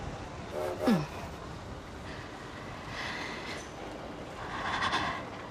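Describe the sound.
A train departing from a station: a faint, steady low rumble of moving rail cars, with a brief squeal near the start and a slight swell toward the end.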